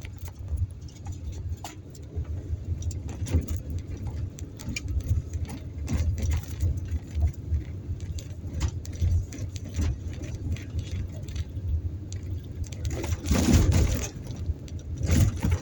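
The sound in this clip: A car driving on a back-country road gives a steady low rumble throughout, with frequent small ticks and rattles layered over the continuous road noise.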